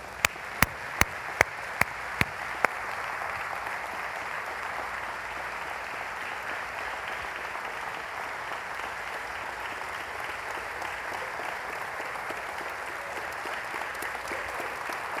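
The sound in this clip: A church audience applauds to welcome a pastor to the stage during a morning service. A few sharp, loud claps come first, followed by sustained, even applause from many hands that carries on to the end.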